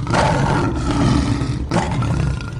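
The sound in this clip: A lion roars in a deep, rough, sustained way that fills the whole moment. The roar breaks briefly partway through and then resumes just as loud.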